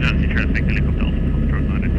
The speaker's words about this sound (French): Caleb Weiss fait coulisser la porte de l'hélicoptère pour actionner le haut-parleur.